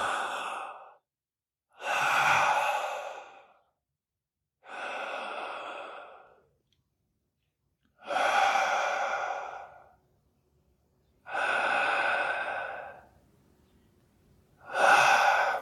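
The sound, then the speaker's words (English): Three slow, conscious breaths, heard as six long, airy breath sounds that pair into drawn-out inhales and sighing exhales, each separated by a stretch of silence, with no talk. “So if I can just take time, maybe once an hour, three breaths consciously, an hour, just three breaths.”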